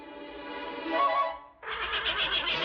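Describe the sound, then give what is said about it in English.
A horse neighing loudly: a long whinny that fades, then after a brief break a second, brighter, quavering neigh, with no talk. “Gus turns into the fourth horse”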